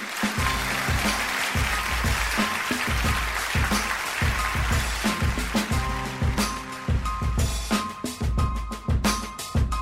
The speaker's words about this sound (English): And now put your hands together.